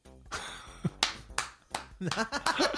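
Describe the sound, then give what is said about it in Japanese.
The boy from the Haunted Mansion attraction at Tokyo Disneyland: a voice with a few sharp claps or snaps breaking in, then a busier stretch of sound toward the end. “じゃあこれはどうだ、これはホーンデッドマンションの男の子”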